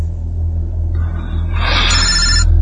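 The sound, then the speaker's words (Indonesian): A telephone rings with an incoming call, a steady electronic ringing tone starting about a second in and continuing over a constant low rumble. “Ketika kulihat, itu adalah panggilan dari saudaraku, Adrian.”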